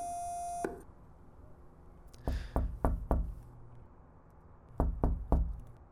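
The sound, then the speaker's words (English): A steady electronic tone from an intercom box beside a locked lighthouse door sounds alone for under a second, then cuts off; later come two clusters of sharp knocks, four and then three. “The lighthouse here has a door, locked. Also an intercom box. Pressing the button.”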